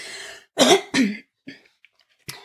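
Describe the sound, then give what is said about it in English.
A person clears their throat with two strong, rough, rasping bursts. A sustained voiced sound comes before them, and a few faint short noises trail off after. “Lots of clearing the throat today.”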